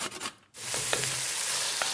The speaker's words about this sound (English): Now I've just put the onion and carrot. Yeah, it's cooking down nicely.